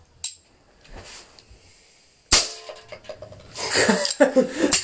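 A beer being opened: one sharp, loud crack after a quieter opening, followed by a longer stretch of busier clattering and rustling sounds.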